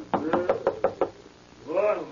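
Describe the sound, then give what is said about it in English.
Six evenly spaced knocks on a laboratory door, sharp and steady, are followed after a short pause by a brief voice. “And every time I knock, wait, and you shall see. Here's the door.”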